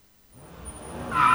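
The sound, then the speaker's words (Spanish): A car engine revs, its rumble building steadily in loudness, and a sharp high tire squeal breaks out near the end. “¿Escuchá ese motor?”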